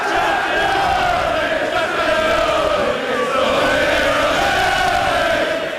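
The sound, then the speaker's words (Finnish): Football fans cheering in a London bar as a long-awaited championship is decided, a dense, loud roar of shouting and cheering voices that stays steady throughout. “Ja tältä meno kuulosti lontoolaisessa baarissa, kun pitkään odotettu mestaruus ratkesi.”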